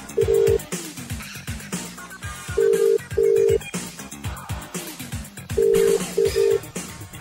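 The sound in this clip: A telephone rings unanswered: repeated double electronic ring tones, steady and mid-pitched, sound over a loud rhythmic music bed with a thumping beat.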